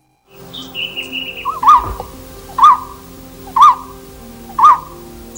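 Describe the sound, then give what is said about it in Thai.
A golden-throated barbet calls loudly from the treetops on a high mountain, giving four evenly spaced, ringing notes after softer whistles and chirps from other birds. “นกโพระดกคางเหลืองที่ส่งเสียงร้องดังจากยอดไม้จะพบได้เฉพาะบนดอยสูงเท่านั้นจึงพบเห็นนกชนิดนี้ค่อนข้างง่ายที่ดอยอินทนนท์”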